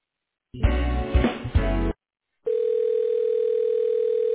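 Telephone line tones sound during a call transfer: a brief burst of mixed tones, then a short silence, then a steady single-pitched tone that holds unchanged to the end.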